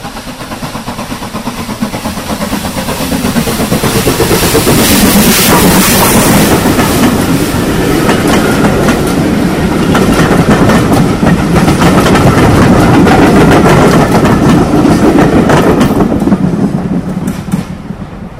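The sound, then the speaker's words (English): Loud, continuous rapid chuffing from a steam locomotive working hard up a hill toward a high bridge, with a dense rhythmic exhaust beat that swells over the middle and eases slightly toward the end. “Her boiler certificate has now expired, and the locomotive has been withdrawn from service pending a general overhaul. But let's listen to her one last time as she climbs the hill up to the High Bridge.”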